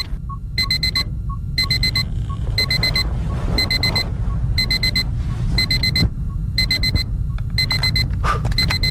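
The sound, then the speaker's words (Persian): An alarm clock rings in regular bursts of rapid, high-pitched electronic beeps, about one burst per second, repeating steadily over a constant low background hum. “ساعت که زنگ زد بیدار شدم”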